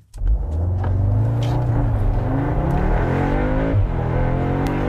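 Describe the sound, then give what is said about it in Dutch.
Audi S3 Sportback engine roaring as the car accelerates hard, a loud continuous growl whose pitch climbs steadily, with a brief dip near the end before it pulls on. “dan kun je heel snel gaan met die Audi S3 Sportback.”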